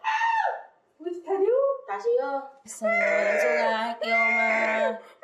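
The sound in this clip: A young child crying in loud, pitched wails that come in several bursts separated by brief gaps, with the voice rising and falling within each cry.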